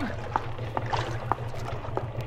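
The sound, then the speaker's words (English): A boat starts to move on a river, giving a faint, steady low motor rumble with a few soft knocks over it. “Hey, the boat's starting to move.”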